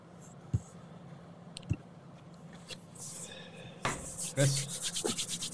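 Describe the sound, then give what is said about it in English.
Hands rub together right against a microphone: a couple of soft thumps, then harsh, rapid, repeated scraping strokes that swell loud through the second half, with no voices. “Only one thing more annoying than the hand rub, and that's the hand rub directly into the mic.”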